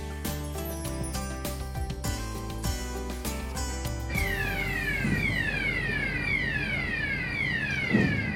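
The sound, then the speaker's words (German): Two large cranes travel on rails along a shipyard quay. A steady, loud mechanical drone carries a few clanks early on, then a repeating sweeping whine. “Geräuschvoll fahren 2 große Kräne auf Schienen am Kai entlang.”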